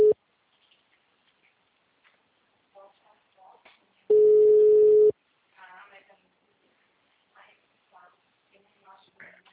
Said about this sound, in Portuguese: Peraí, tô ligando aqui rapidinho.